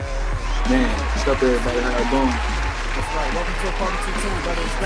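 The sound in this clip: Audience applause and cheering as a guest is welcomed onto a talk show, a continuous wash of clapping with voices and a low thumping beat running through it.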